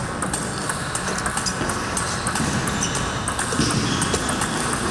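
Sharp plastic clicks of table tennis balls being hit back and forth during practice at a tournament. Many quick, bright ticks sit over constant, dense background noise.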